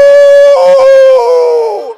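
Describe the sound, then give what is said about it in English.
A human voice imitates dogs howling with one long, loud, sustained 'woo' that holds a steady pitch and then wavers and falls as it fades at the end. “And my dogs suddenly, they recognized I was dying, you know. They were outside the window. And all my dogs, they started, "Woo,”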